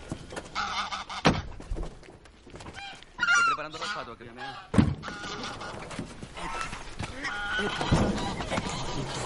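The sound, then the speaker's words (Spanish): Geese honking from a car boot packed with live geese: many loud, irregular, nasal honks overlapping in a busy, agitated cluster that continues throughout. “Un hombre se baja de un coche con el maletero lleno de gansos.”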